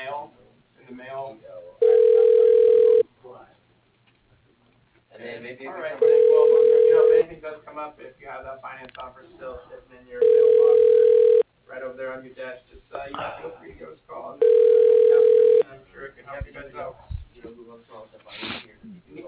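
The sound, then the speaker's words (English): A telephone ringback tone plays while a call is transferred to a receptionist. Four long, steady mid-pitched tone bursts come at even intervals, with a recorded voice talking between them. “Your call is being transferred to the receptionist.”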